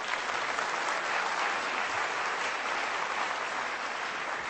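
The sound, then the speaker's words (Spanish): Audience applause at a personal development talk: dense, steady clapping that runs evenly through the whole stretch, with no voices rising above it. “Esto merece un aplauso, por favor”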